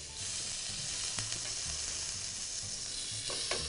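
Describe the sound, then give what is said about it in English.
Thinly shaved zucchini slices fry in a pan with a steady, bright, hissing sizzle throughout, broken by a couple of brief scraping clicks. “So now we can see the zucchinis are starting to get a little translucent. Just going to flip these over.”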